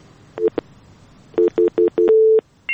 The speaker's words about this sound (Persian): باز هم تماس داریم.